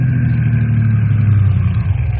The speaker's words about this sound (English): here come car now, Bill. Let's stop them and give them a helpful warning that'll save their lives.